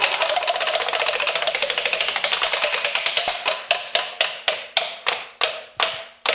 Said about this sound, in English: spin that wheel